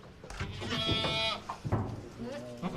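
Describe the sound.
A young goat bleats twice: a long, quavering, nasal cry, then a shorter second bleat after a brief pause, both fairly faint.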